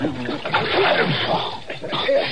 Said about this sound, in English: Just splash some more water.